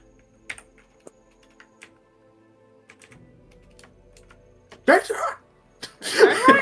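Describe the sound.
Typing on a computer keyboard: sparse, soft key taps scattered through the first part, then a couple of louder, denser bursts of clatter near the end.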